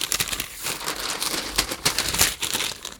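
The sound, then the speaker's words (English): A newspaper page is turned, with a continuous dry rustle and crinkle of paper that lasts about three seconds. There are no voices. “Also strange that there was a page turn required to read a story in a paper.”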